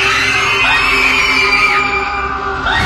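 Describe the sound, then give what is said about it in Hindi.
A group lets out a terrible scream together, many shrill overlapping voices, loud and sustained without a break for about three seconds. “उन सब ने एक साथ एक भयानक सी चीख मारी”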